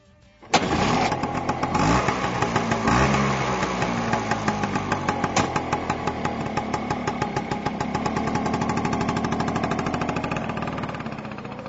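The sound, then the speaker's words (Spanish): A Vespa scooter engine starts abruptly and keeps running for about eleven seconds, a loud, dense, rapidly pulsing buzz that holds a fairly steady rev with slight swells. “Este todavía existe y, por cierto, sigue siendo bastante incómodo porque ha proliferado, ¿no? Estamos hablando, claro, de la Vespa.”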